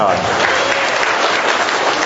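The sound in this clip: Children burst into dense, steady applause to welcome the start of a prize quiz, and the clapping stays loud and even throughout.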